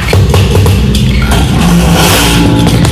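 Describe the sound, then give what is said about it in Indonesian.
A truck passes with a loud, continuous engine rumble and an accelerating, revving drone. Its higher noise swells toward the end. “Truk kae.”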